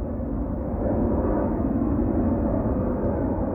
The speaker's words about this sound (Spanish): la víspera del partido, el avión del Atlético despega con Jesús Gil y Gil a bordo.